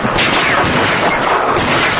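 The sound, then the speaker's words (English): Gunfire from two guns, one in each hand: loud, dense shots overlap in a rapid, continuous barrage that runs unbroken through the whole stretch. “starts firing with a gun in each hand.”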